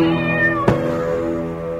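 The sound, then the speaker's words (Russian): A black cat meows as it crosses a street: a steady, fairly loud tonal cry that runs through the whole moment, heard alone with no talk. “Идет он по улице, дорогу перебежала черная кошка.”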